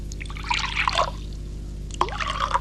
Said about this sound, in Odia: ଠିକ୍ ଅଛି ବ୍ରହ୍ମଚାରୀ, ମୁଁ ଏଇ ଜଳପାତ୍ରରେ ଜଳ ଦେଇ ତ୍ରିବାର ଶ୍ରଦ୍ଧ କରୁଛି।